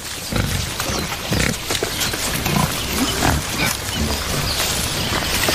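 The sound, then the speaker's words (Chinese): Wild boar forage on the ground with their snouts for roots, worms and larvae, making a continuous, dense rustling and snuffling with pig-like grunts, steady and fairly loud. “野猪灵活柔韧的长鼻子派上了用场，它们在地面搜寻根茎、蠕虫、蜗牛、菌类以及丁目大蚕蛾幼虫为食。”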